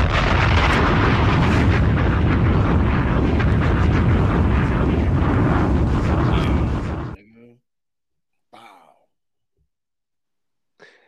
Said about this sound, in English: I don't know if it's just me and I'm just so used to Clues bombs. I think we can do a better bomb than that.